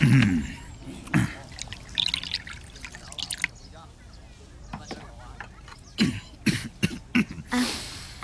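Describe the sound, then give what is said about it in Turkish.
Wine is poured into a bowl in short, faint trickles and drips that come in scattered bursts separated by quiet stretches. “Bana şarap ver. Tamam. Bir kase doldurayım.”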